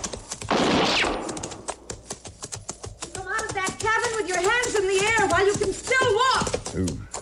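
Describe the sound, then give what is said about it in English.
Rifle shots are fired at a shack: a burst of rapid, sharp cracks and noise near the start, with further scattered shots continuing under spoken narration in the second half. “a woman who appeared to be in her middle 30s busily firing a rifle at a shack”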